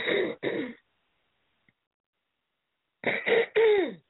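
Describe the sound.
Someone clears their throat with a frog in it. Two short rasping bursts come first, then a silent pause, then three more harsh, gravelly clearings in quick succession. The sound is moderately faint and heard alone.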